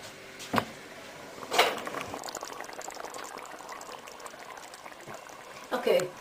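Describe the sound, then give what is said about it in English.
Steady bubbling of curry sauce boiling in a pot before the heat is turned down low, a continuous liquid gurgle with a few louder bursts near the start, middle and end. “Right, leave that to boil. Bring it to the boil, turn it down low and leave it for about 20 minutes.”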